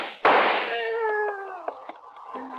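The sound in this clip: A single sharp gunshot as a police officer fires at a fleeing man beside garbage cans in a 1950s radio crime drama. A loud crack is followed by a pained voice crying out.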